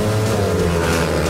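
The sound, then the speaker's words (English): The roar of 500cc fuel-burning speedway motorcycles with no brakes racing: a loud, dense engine drone that stays steady and continuous throughout the brief clip. “500cc fuel-burning speedway motorcycles with no brakes, going from 0 to 60 in under 3 seconds.”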